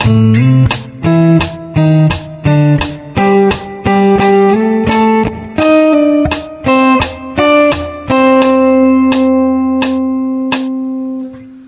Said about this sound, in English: Example 15B uses the same notes as 15A, but in a different order with different timing. At a slow tempo, it sounds like this.